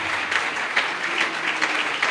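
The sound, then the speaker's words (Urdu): Loud applause from a church audience, dense steady clapping that swells in a few brief louder bursts. “ہم یسوع کے لیے زوردار تالیاں بجائیں”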